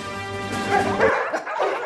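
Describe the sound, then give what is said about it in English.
Dogs barking and yipping in a short, busy burst of overlapping bow-wows and yelps, fairly loud and steady throughout with several sharper peaks, and no talk over it. “that's where the dogs come in.”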